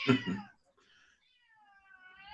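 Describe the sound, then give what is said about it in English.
A cat meows: one loud, harmonically rich meow at the start, followed after a short pause by a quieter, sustained high tone that trails to the end. No voices. “No, that's my cat.”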